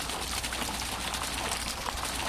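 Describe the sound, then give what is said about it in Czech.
Water babbling from a fountain on a town square, Republic Square: a continuous, even rush of splashing water with no pauses, no voices and no other clear sounds. “Voda zurčí, my jsme ušli doslova pár kroků a ocitli jsme se na náměstí Republiky, na místě, kde v dnešní době stojí kašna.”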